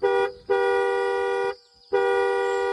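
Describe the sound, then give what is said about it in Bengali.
A department car's horn honks in loud, steady, bright blasts separated by short gaps; the middle blast runs longest, and no voices are heard. “সময়ের আগে ডিপার্টমেন্টের গাড়ি এসে হাজির এ তো ভাবাই যাচ্ছে না বলতে না বলতেই ফের দুবার হন”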